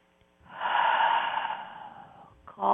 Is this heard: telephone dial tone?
no